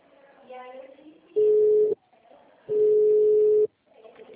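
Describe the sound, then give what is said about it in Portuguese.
A telephone busy tone after a dropped call plays as two steady, mid-pitched beeps separated by a short gap, the second longer than the first, following a brief voice. “Acho que caiu a ligação, né? Caiu, querido.”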